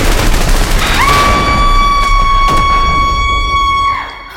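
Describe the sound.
Gunfire in a science-fiction battle: a loud, dense roar with a few sharp bursts, and a steady high whining tone held through most of it.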